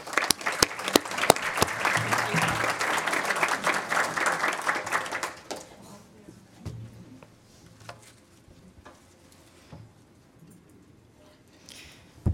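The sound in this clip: Audience applause welcoming a speaker to a lecture: dense, loud clapping from a crowd for about five seconds, then it drops away abruptly to a few scattered, fading claps and near quiet, with one last clap at the very end.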